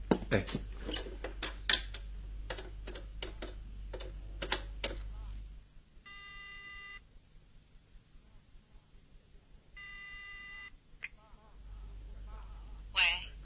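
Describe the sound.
A telephone call is placed from home, starting with a run of sharp clicks. After a quiet gap come two separate bursts of ringing tone, with a pause between them.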